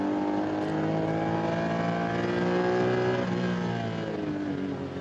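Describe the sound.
Race car engine at high revs accelerating out of the carousel corner and uphill on the Nürburgring Nordschleife during a VLN endurance race, a loud continuous buzzing roar with a steady harmonic note that wavers briefly midway.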